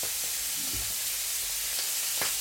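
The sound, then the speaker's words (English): Livers frying in a hot pan give a steady, even sizzle with a few faint pops and spits rising above the constant hiss. “Careful, they spit. Fry for 2 minutes exactly. Do not disturb them.”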